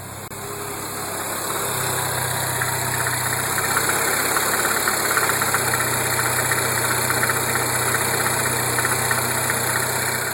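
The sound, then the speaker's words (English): A car engine runs at a steady idle, a constant low rumble with a buzzing vibration that swells in level over the first two seconds and then holds evenly throughout. “so as often I have to clarify that that is an automotive noise because sometimes people call in with interesting answers. But this is, I promise you, it's from a car”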